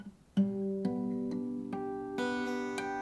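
Bell-like guitar harmonics played above the 12th fret, plucked one string after another so that six clear notes stack up and ring together into a sustained, shimmering chord.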